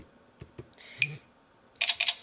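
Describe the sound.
Taps on an Android phone touchscreen running Ice Cream Sandwich: a few soft, faint ticks and clicks, then a quick cluster of brighter taps near the end, with no talk.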